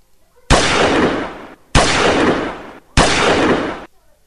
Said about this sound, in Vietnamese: Ba phát súng, thanh âm cơ hồ chỉ phát ra cùng một lúc.